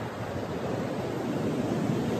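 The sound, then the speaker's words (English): Ocean waves washing onto a beach make a steady, dense rush of surf noise that stays loud and even throughout, with no distinct breaks or separate wave crashes. “Let's use a beach today, now that we have the waves.”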